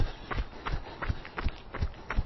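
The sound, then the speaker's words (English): Jogging footsteps during an interval workout: about six regular, evenly spaced thuds that keep a steady running rhythm. “And back to your jog.”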